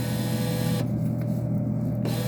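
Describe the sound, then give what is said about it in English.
A machine's bill acceptor rejects a five-dollar bill, giving a steady motorized whir that shifts in tone for about a second before returning to the same hum. No one talks. “why won't the machine take this $5 bill? Is it not real? Yeah, why ain't it taking it? It took the two singles, but not the five.”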